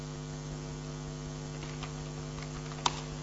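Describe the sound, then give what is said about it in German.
A command is typed on a computer keyboard at a Linux console: a few faint, sharp key clicks, the last one the loudest. They sit over a steady, prominent mains hum. “Tippe Start X ein und als Option Doppelpunkt 1.”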